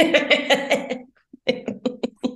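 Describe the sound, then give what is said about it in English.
A person coughing: a rapid run of loud, rasping bursts, a brief pause, then a second string of sharper, shorter coughs. “so sorry about this cough. I am so sorry. I cannot imagine having AirPods in right now and hearing that.”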